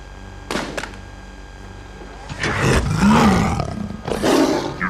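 A lion roar sound effect in an 80s action movie: two short rough bursts, then a long, loud, growling roar that swells, dips and swells again to the end.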